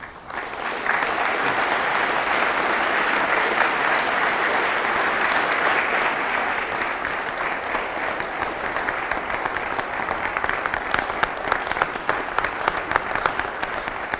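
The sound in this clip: Audience applause welcomes a lecturer before a talk on African Christian history, a sustained, even wash of many clapping hands lasting the whole stretch without a break, with no voices standing out.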